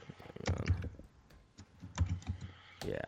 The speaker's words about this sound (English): Can you pull up a right now? Like, just type in Google Maps.